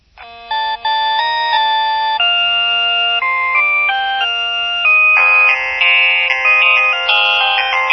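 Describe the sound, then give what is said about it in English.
A phone's default ringtone plays a bright, electronic melody of stepped tones at a steady, loud level, growing fuller and busier in its second half. “Here is my default ring. This is what happens if somebody rings and they're not in a caller group.”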